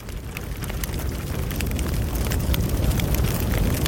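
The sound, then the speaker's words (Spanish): Crackling fire: dense, continuous snaps and sharp pops over a low, steady rumble. Many crackles pile up and grow slightly louder across the span, with no voices. “El crepitar del fuego nos anuncia la llegada de Salduye.”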